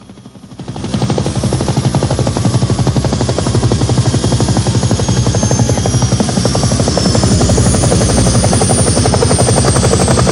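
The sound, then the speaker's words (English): Helicopters with bright lights underneath descending into a city square, a steady, loud rotor thump that swells in over the first second and then drones on evenly, the rapid blade pulses continuous throughout. “The helicopters, with bright lights ablaze underneath, lower into a city square.”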